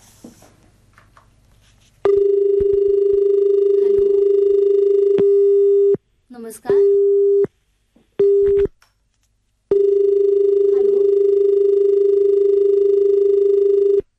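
A telephone line tone on an incoming radio phone-in call: a steady, low, buzzing tone held for several seconds, broken by short gaps and a few brief bursts, then sounding unbroken again.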